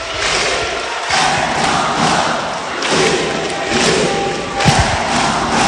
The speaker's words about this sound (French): Ici c'est tango, ben oui c'est tango. Ici le clapping avec tout le public pour fêter, c'est aussi la tradition après chaque victoire de Bourges Basket.